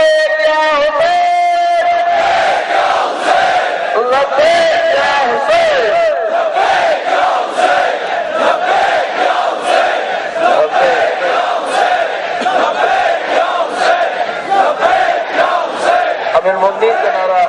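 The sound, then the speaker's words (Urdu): Crowd chanting religious slogans in praise of Amir al-Mu'minin, amplified through loudspeakers. Many voices shout together loudly and steadily throughout, with rhythmic massed cries that overlap continuously. “ہم بلند آواز میں نعرے لگائیں گے، ہم ایسے لگائیں گے، بلند آواز میں لگائیں گے، ان سب آوازوں کو ایک جگہ جمع کریں گے. لاؤڈ اسپیکر کا ہمارے پاس فائدہ یہی ہے”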